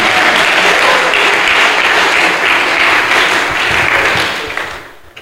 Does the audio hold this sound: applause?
yes

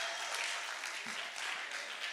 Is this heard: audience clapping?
yes

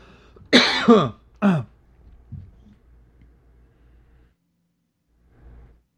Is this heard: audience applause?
no

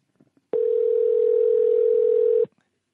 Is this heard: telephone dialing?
yes

